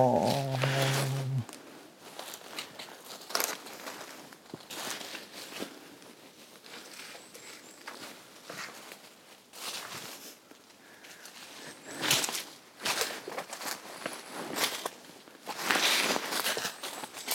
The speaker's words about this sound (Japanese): 僕は今沿って歩いてるんですね